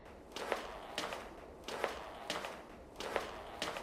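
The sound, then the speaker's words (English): Footsteps of a person climbing stairs in a traditional Iranian building: six soft, crisp steps falling in loose pairs at a steady pace, faint over low background noise. “And let me go up the stairs.”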